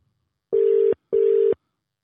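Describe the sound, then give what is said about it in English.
A phone call ringing out, two identical steady mid-pitched ringback tones of equal length separated by a short gap, alone and clear. “Okay, let's see if we can get him online. He doesn't know we're calling. Do you reckon he'll answer?”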